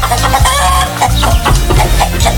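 Chickens clucking in a henhouse, a loud run of overlapping clucks and short squawks from several hens in an irregular, busy rhythm.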